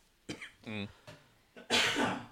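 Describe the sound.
Coughing from a smoker: a few short throaty bursts and a voiced, rasping hack, then a louder, harsh, breathy cough to close, with no words spoken.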